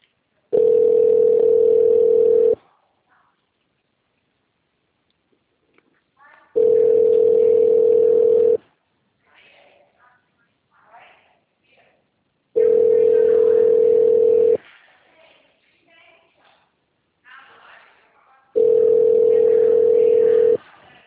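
Telephone ringback tone while a call connects after a menu, four steady buzzing tones of about two seconds each, evenly spaced with quiet gaps between them.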